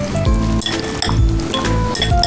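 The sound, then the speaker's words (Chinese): Beef slices are mixed in a bowl with a marinade of light soy sauce, salt, dry starch and pepper. Wet stirring is broken by a few sharp clinks against the bowl. “盐少许，干淀粉少许，胡椒粉少许。现在我把它腌制一下，”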